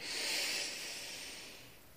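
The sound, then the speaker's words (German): A deep inhale through the nose during a counted breathing exercise, a soft, steady airy hiss that swells early and slowly fades over about two seconds, heard alone without talk. “Auf vier einatmen”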